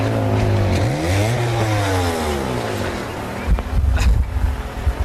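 Mopeds revving from a played-back recording: a buzzing engine tone sweeps upward around the first second and eases back, then rougher, louder bursts of revving come near the end.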